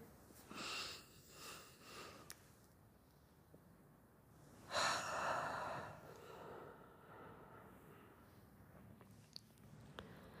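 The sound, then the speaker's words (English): Soft, airy breaths drawn in during a guided relaxation, a few faint inhales with the fullest one near the middle, otherwise quiet with no talk. “I want you to take a nice, big, deep breath in.”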